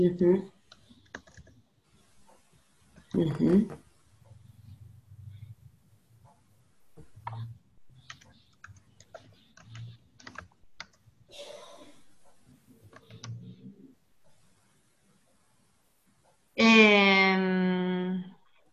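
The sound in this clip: Faint typing on a computer keyboard: scattered soft key clicks sit between and under short bursts of conversation, ending with a louder voiced sound.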